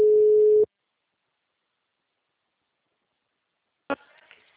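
A telephone ringback tone sounds on an outgoing call: one steady, mid-pitched tone lasting just over half a second, then silence, then a short burst of faint noise near the end.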